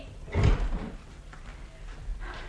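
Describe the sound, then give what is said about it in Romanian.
A knock on a door lands as a single dull, low thud near the start, then trails into faint, quiet noise. “Cine bate la ușă? Cine ne deranjează din conversația noastră?”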